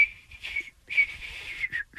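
A person whistles a short tune: a few clear, high notes in quick phrases with brief gaps between them.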